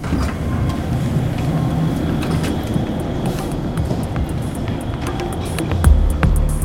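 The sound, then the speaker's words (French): Ambience at a train station in Rennes, by a statue near a metro line: a steady, dense rumble and hum with scattered knocks and clicks, and a heavier thump near the end. “On est à la gare”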